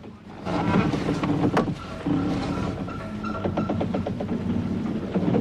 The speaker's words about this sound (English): John engages a lever and the schooner's propeller turns beneath the water. He spins the wheel round to starboard.